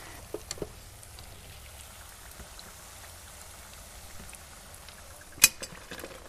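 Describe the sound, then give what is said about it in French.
Water dripping as freshly cooked homemade food is drained, a faint, steady patter of drops with a few sharper ticks and one distinct louder click near the end. “Là, c'est l'égouttage. On égoutte.”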